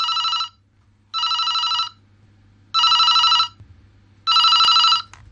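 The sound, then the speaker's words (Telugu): A telephone ringing with four loud, bright trilling bursts in an even rhythm, separated by short silences, over a faint low hum. “ఆయన గారిది ఈ phone call.”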